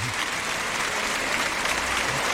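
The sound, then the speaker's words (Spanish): A bullring crowd in Jaén gives an ovation to three matadors. The applause is dense and even, holding at a steady level from start to finish. “Ahí están, saludando los tres, Montera en mano derecha. La ovación del público jiennense, que bueno, que anima a que esto salga bien.”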